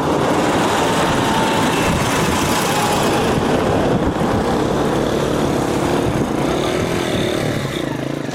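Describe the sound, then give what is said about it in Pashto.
Mixed traffic of army tanks, auto rickshaws and cars passes near a children's cricket game, a loud, dense and continuous rumble of engines that holds steady without a break. “د دې میدان هوا ډزو او مځکه د ماشومانو ناروغ خوشحالۍ نیولې ده. د کرکټ دې لوبې ته چیرمه د ملي اردو ضربتي ټانګونه او د ملکي کسانو رخشې او موټرونه ګډ تګ راتګ کوي.”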